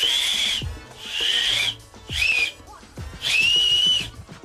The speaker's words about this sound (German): Also ich halte meine Daumenknicke aneinander und puste dann zwischen meinen Daumennägeln durch.